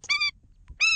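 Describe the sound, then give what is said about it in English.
Calls of the endangered Indian skimmer bird: two short, high, nasal harmonic notes separated by a brief pause, clear and alone. “that's the sound of the endangered Indian skimmer bird.”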